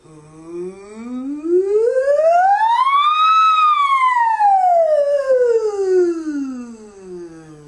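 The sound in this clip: A voice imitates a siren in a single breath. It glides smoothly from a low pitch up to a high peak and then back down to the bottom, loud and steady throughout.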